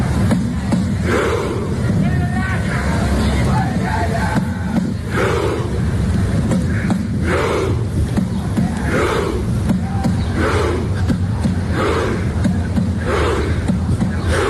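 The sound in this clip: Norwegian football fans chanting in the streets of Miami, a crowd of many voices repeating a rhythmic chant in regular loud bursts over a constant roar.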